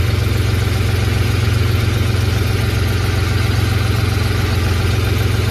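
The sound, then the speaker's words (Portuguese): A truck engine idles, heard from inside the cab, as a loud, constant rumbling drone. A heavy low hum sits under a dense wash of noise, with no change in pace and no talk. “Esse era o barulho de dentro da cabine do caminhão dele.”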